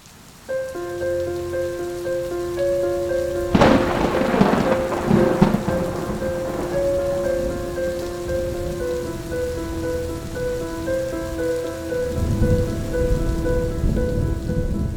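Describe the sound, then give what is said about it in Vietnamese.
Thunder cracks and rumbles through a rainstorm with lightning: one loud, sharp burst early on, a lingering rumble, then a second swell near the end, all over steady rain hiss and a sustained tonal drone. “Tiếng sấm vang rền trời, từng ánh chớp như tia lửa điện xẹt ngang, vẽ những đường chằng chịt.”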